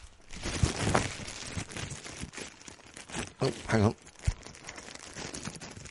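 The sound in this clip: A paper award envelope with a popper fastener is opened, giving crinkling, rustling and tearing paper sounds at a moderate level, with voices talking over it.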